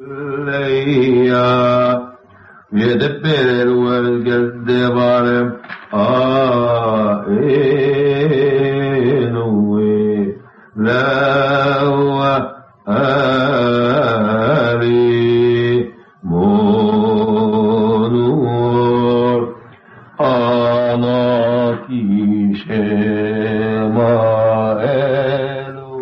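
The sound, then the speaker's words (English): A Samaritan priest cantillates the Ten Commandments in Hebrew, a solo male voice singing long, melodic chanted phrases separated by brief pauses, strong and steady throughout. “The priest is singing to speech. He is cantillating the Decalogue, and his purpose is to make the text attractive.”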